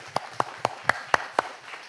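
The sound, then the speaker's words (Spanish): Rhythmic clapping from a church audience: six sharp, even claps about a quarter second apart, followed by a brief quiet tail. “Dele palmas al Señor que ora con la confianza en Dios.”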